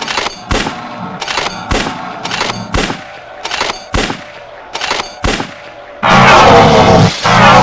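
Rapid gunfire aimed at a flower comes as many sharp, evenly spaced shots, followed at the end by a louder, longer roaring blast.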